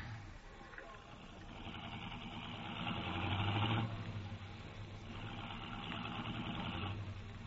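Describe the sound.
A car engine running in hot weather, a steady low rumble that swells slightly in the middle and then holds constant.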